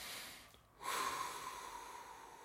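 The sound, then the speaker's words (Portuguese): A deep breath is taken. After a quiet start, a single long, faint, airy breath begins and continues to the end. “Vamos respirar fundo.”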